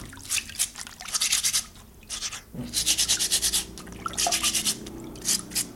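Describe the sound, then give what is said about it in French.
A stiff brush scrubbing soil off fresh truffles: loud, rapid rasping strokes in several bursts of back-and-forth scrubbing, separated by short pauses. “Il faut les brosser fortement pour enlever toute la terre. Il faut les brosser fortement, fortement dans tous les coins.”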